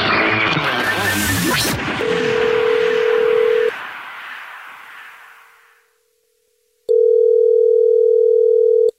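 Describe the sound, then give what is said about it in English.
Telephone line tones as a call is placed back to a listener: a steady tone sits under a loud, noisy burst that fades to silence, then a loud, steady tone returns alone. “It's the Jubal Show, and you texted us at 41061 saying you have a dirty little secret, so we're calling you back to ask what your dirty little secret is”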